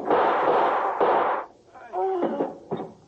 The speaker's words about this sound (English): We had to shoot, sir.